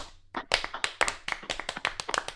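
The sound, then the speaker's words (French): A small round of applause breaks out to congratulate someone, with many sharp hand claps from a few people in a quick, uneven rhythm throughout. “Un petit clapping pour Fred”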